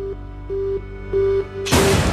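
A single loud gunshot-like blast cuts in at the end, after several short, evenly pitched beeping tones repeat on and off.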